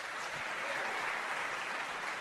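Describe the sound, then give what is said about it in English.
Audience applause after a cast member is introduced at a live show: dense, steady clapping that stays loud and even throughout, with no voices standing out. “I think the applause meter jumped really high on that one.”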